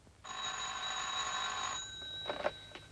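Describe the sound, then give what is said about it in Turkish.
An office telephone rings for an incoming call: one long, steady, bright electronic trill that holds for over a second and then stops, followed by a few brief, softer clicks. “Ümran Hanım arıyor. Konuşacak mısınız?”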